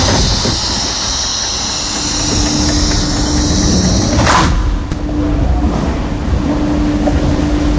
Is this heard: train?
yes